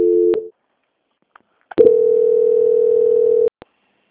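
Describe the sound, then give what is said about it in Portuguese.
Telephone line tones during a call transfer: a brief steady tone, a pause with faint clicks, then a longer unbroken tone that stops abruptly, followed by a single click. “Aguarda em linha que eu vou transferir aqui”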